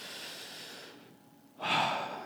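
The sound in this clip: A person takes a breath between spoken phrases, ending in one quick, breathy inhale that is fairly loud. A softer airy hiss comes before it, and no words are spoken.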